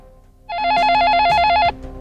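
A telephone rings once with a loud, rapidly trilling electronic bell lasting a little over a second, then cuts off.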